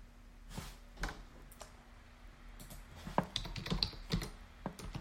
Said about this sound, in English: And here I am typing in some stuff.